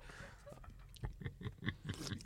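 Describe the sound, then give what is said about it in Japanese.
Sips and swallows of Kizakura Golden Ale from a can, a few soft, wet mouth and gulping sounds, faint and uneven, with no talk over them. “すいません、放送事故じゃありません、今ビール飲んでるまです、ごめんなさい。とても美味しいです。 キザクラのね、私はゴールデンエールという缶ビール飲んでますけども”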